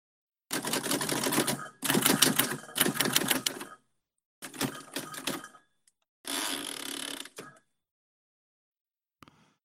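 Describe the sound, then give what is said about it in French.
Typewriter typing: rapid mechanical keystrokes clatter in five dense bursts separated by short pauses, followed by a single faint click near the end. “pourriez-vous enregistrer votre machine à écrire”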